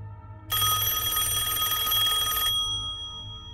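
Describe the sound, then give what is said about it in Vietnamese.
A telephone rings with one steady, bright electronic tone lasting about two seconds over a low hum. No voices are heard. “Lại tiếng chuông điện thoại.”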